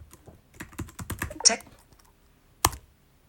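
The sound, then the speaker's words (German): Keystrokes on a Mac computer keyboard: a quick run of crisp taps, then a short pause and a single louder final press. “Jetzt gebe ich mal Text-Edit ein.”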